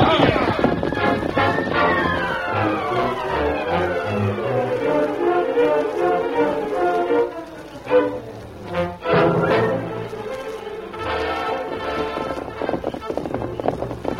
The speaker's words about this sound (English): The Indian says he thinks he knows a shorter trail back to town, so we let him take the lead. Whatever way we go, you're sure in for some hard riding. Now let's go. Get up there.